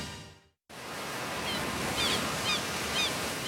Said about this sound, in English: Every day in California, more than 11,000 surfers paddle out across our 840 miles of pristine coastline.